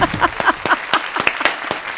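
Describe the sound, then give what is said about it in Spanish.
A television studio audience applauds with loose, scattered claps. A speaking voice overlaps the first part, then individual sharp claps continue at uneven intervals. “Un aplauso para Pilar, por favor.”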